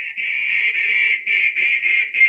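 Duck quacking, a nasal, reedy call drawn out into a near-continuous run of long notes with brief breaks between them, steady in pitch and fairly loud, with no voices.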